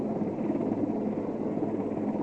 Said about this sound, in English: And here comes the primary recovery helicopter into position.